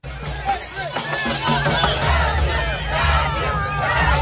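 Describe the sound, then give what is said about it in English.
Brazilian football fans in Times Square warm up before a World Cup match: a dense crowd hubbub of overlapping chatter, cheers and occasional whoops, steady and building slightly throughout. “That's the sound of Brazilian football fans. They're warming up in Times Square for tonight's World Cup match.”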